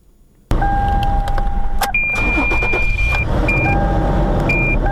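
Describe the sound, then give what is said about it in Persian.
A car engine starts as a woman driver in Herat turns on her car: a sudden loud burst of engine noise, then steady running, with thin electronic chime tones sounding over it. “در حال روشن کردن موترش است. او چندین سال می شود که با موترش سر کار می رود”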